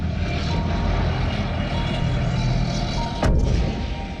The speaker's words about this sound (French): le son des petites balles blanches est couvert par celui beaucoup plus inquiétant des bruits de bottes et d'autres balles, autrement plus dangereuses.